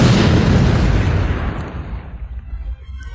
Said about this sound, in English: The Death Star had exploded into space.